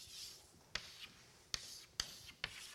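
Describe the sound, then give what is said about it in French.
Pen strokes from drawing a cube by hand: a few quick, scratchy marks, each opening with a sharp tap against the surface, with softer rubbing between them. Fairly faint, with no talking. “on peut dessiner un cube. Pardon. Voilà. Vous dessinez un cube dans l'espace.”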